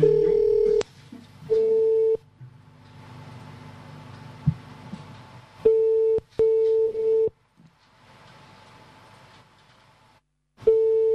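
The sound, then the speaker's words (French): Ringing tones of an outgoing telephone call sound as several steady, low-pitched beeps separated by quieter stretches of hiss and faint hum, with a few sharp clicks. “Nous appelons la mère de Porco.”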